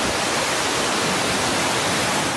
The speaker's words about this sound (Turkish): Son olarak doluluk soğukluk nedeniyle baraj kapakları açıldı.